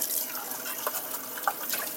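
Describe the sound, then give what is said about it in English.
Tap water runs into a kitchen sink as an empty can is rinsed out, a steady broad hiss broken by a few brief splashy spurts. “Quick rinse of the can.”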